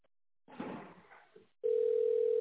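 Steady telephone dial tone heard while calling a wine supply company. It sounds as one loud, unbroken mid-pitched hum that begins abruptly after a brief stretch of rustling noise and runs to the end.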